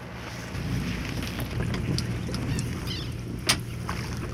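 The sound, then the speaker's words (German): Low rumbling on a fishing boat out on a calm lake: a faint, steady drone with a few soft knocks and one sharper clack near the end, with no voices. “Nur das Gerumpel auf dem Fischerboot, ein paar Seeschwalbenschreie und dann bald ankommende andere Fischer durchbrechen diese Stille mitten auf dem See”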